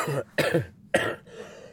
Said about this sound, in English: Cough still here.